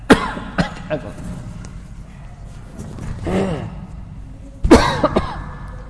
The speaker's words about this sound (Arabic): أنا أخاف أكح.